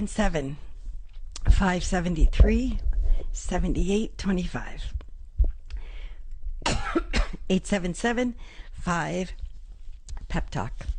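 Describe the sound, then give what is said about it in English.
Repeated coughing and throat clearing from a person who has just inhaled saliva: a run of harsh, partly voiced bursts with short gaps, fairly loud and steady across the whole stretch. “I'm inhaling my saliva.”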